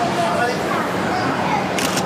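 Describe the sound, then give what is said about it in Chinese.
Two quick, crisp clicks of a camera shutter sound close together near the end, over a steady, even background hiss. “快门一按，效率。”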